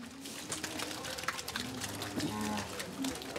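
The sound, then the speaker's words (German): Cows moo on an organic dairy farm as they are let out to pasture after early-morning milking. A few low, drawn-out moos rise over a steady bed of farmyard noise. “Ich lerne, Kühe sind Frühaufsteher. Um 3 Uhr wurden alle schon gemolken. Und jetzt dürfen sie endlich raus auf die Weide.”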